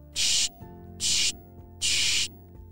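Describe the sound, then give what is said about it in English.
Three bursts of spray from a bottle of Bubbleberry soap, each a loud, breathy hiss lasting about a third of a second, separated by short quiet gaps. “He sprayed a few sprays of the Bubbleberry soap,”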